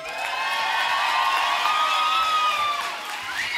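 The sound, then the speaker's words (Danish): An audience claps and cheers for an orchestra at a concert, with high whoops and whistling voices riding over a steady, loud wash of applause. “Er der overhovedet nogen, der har givet det her fremragende orkester en hånd derpå?”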